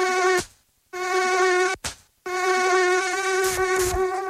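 A mosquito buzzes in a high, steady, whining drone rich in overtones. It comes in three loud bursts separated by two short silences.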